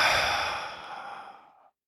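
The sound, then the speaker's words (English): A deep belly exhale through the mouth: one long, breathy sigh that starts strong and fades out over under two seconds, alone, with no talk. “As you inhale through your mouth, expand your belly. On the exhale, squeeze your belly to your spine.”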